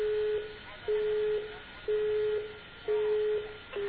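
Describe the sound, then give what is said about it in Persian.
Telephone busy signal on a radio call-in line: a steady low beep pulsing on and off at an even rate, about once a second, over a faint background hiss, with no speech. “بله این، بله این خطی که الان من رو بس کردم از اتاق فرمان تماس گرفتن، بوغ آزاد خورد ولی الان داره بوغ اشغال میزنه.”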